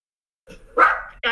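A dog barks in a few short, loud bursts, one after another, with no talk.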